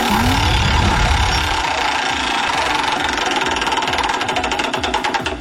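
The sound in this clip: A prize wheel spun for a game gives a loud, steady rattle of rapid clicks that gradually spread apart as the wheel slows toward the end.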